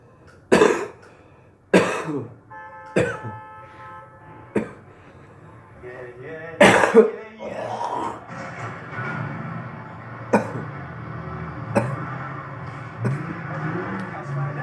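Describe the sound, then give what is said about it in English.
Harsh coughing after smoking: a few loud, sharp coughs in the first seven seconds, then fainter coughs and throat noises over a steady background hum with sustained tones. “I can't hold my smoke. Cough, cough, cough, cough.”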